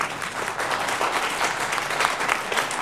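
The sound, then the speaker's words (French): Applause from a small theatre audience of about sixty standing for curtain calls at the final performance of the Avignon Off festival, a dense, even, sustained clatter of many hands with no voices. “Les 62 spectateurs installés devant la première mort de Stanley Kubrick au Théâtre Ovale se lèvent, applaudissent et rappellent par trois fois les comédiens.”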